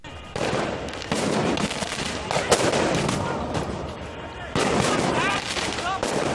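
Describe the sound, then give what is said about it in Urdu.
Police gunfire at a student protest in Alexandria, Egypt, where tear gas was also fired: a few sharp, loud cracks break through a constant roar of noise. “اسکندریہ میں مصری police نے طلبہ کے احتجاجی مظاہروں کا جواب آنسو گیس اور گولیاں چلا کر دیا۔”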